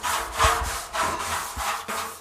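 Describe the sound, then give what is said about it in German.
A large brush scrubs cheese-making utensils clean. Repeated rasping strokes fall in a steady back-and-forth rhythm, with no voices. “das ganze Käsegeschirr ab und schrubbt mit einer grossen Bürste das Käse sauber.”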